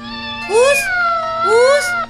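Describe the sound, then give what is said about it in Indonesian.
Two clear, loud meows come from an injured kitten whose leg was hurt when a bicycle fell on it; each cry rises then falls in pitch, separated by a short pause. “Wah, kasihan kucing ini. Sepertinya kakinya luka karena tertimpa sepeda.”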